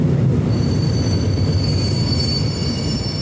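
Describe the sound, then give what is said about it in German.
A regional passenger train pulls into a station: a loud, steady low rumble of wheels and running gear, with thin, high-pitched wheel squeal lines held above it throughout. No voices. “die Mitteldeutsche Regiobahn fährt hier gerade ein.”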